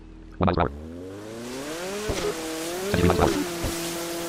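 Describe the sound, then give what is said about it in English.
A fast boat's engine in a video game whines and revs, its pitch climbing steadily, with a few short, louder bursts breaking through the drone. “Oh, that appears to be a boat. Oh, this thing is fast.”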